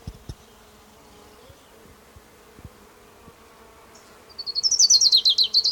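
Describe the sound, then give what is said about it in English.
Ground warbler song: a high, rapid trill of many sharply repeated notes bursts in over the final second and a half, after a quiet stretch broken by a few faint low knocks. “Ground warbler number 3.”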